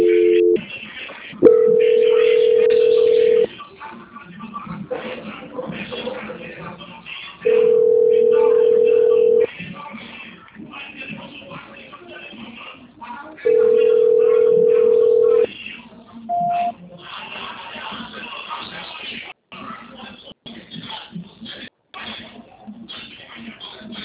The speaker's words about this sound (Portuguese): Mais um momento que eu acho que está retornando a ligação. Transferência.